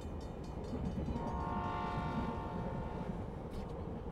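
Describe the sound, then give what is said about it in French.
Train at the railway station in Yaoundé, Cameroon: a dense, continuous low rumble of rolling rail cars, with one sustained, steady horn blast rising over the noise midway through. “Nous venons d'arriver à la gare ferroviaire de Yaoundé”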